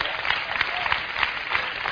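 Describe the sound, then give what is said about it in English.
Audience applause fills the whole moment as dense, steady clapping at an even level, with no voices standing out. “Give him a hand. That's powerful, isn't it? We should clap right there.”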